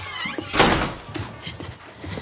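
A toilet door being shut makes one dull, fairly loud thud, followed by faint rustling and shuffling sounds.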